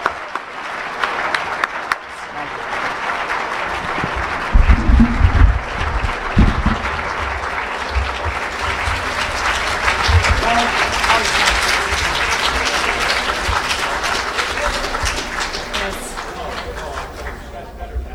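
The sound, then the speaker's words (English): An audience applauds a guest speaker at an evening presentation, dense and steady clapping that lasts the whole stretch, with a speaking voice briefly heard alongside it. “And as we welcome her, let's also give a big hand to Bret Stephens, our guest speaker.”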